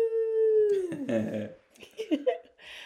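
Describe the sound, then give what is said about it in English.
A household dog howls with a long, sustained tone that slides down in pitch, followed by a few shorter, uneven sounds and brief voices. “if you guys hear anything in the background, it is mainly our dog, Kobe”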